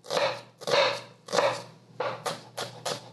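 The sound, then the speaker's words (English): A knife chops red onion or shallot in several sharp, crisp strikes, each with a low thud on the board. The strikes are spaced fairly evenly, then come a little faster toward the end. “we're gonna chop some red onion or shallot.”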